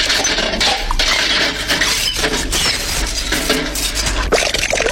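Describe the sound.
Washing up by hand with very hot water: dishes, pots and cutlery clink and clatter constantly against one another under running, splashing water, a busy, steady jumble of sharp metallic and ceramic knocks.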